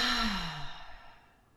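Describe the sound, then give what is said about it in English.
A deep breath let out as an audible sigh: one long exhale, strongest at the start, with a low voiced hum that falls in pitch before the breath fades to a soft hiss. “How about we share a deep breath? Make a sound if you can.”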